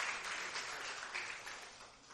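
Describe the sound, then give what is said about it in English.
Audience applause with steady, dense clapping that fills the whole stretch at an even level, no voices standing out above it. “give them a big hand clap as they go back”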